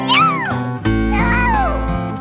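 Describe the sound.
Two long, sung meows in a French children's song, a voice imitating a cat, each rising then falling in pitch over a steady musical backing.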